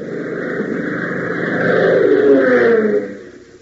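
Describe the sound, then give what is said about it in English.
Radio sound effect of strong wind buffeting an airplane: a steady, droning roar that swells to a louder, rougher peak midway, then eases off near the end. “the designer increases the speed of the wind now obviously buffeting the plane”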